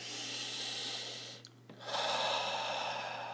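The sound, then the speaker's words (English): A deep breath heard as a soft, breathy hiss that breaks off briefly near the middle, then resumes slightly louder, over a steady low hum. “I would like everyone listening to this podcast to join me in taking a deep breath.”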